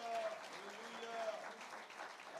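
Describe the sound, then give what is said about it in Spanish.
A church audience applauds during a service, a faint, even patter of many hands throughout, with a voice speaking over it. “Dale un aplauso y bendice al Señor.”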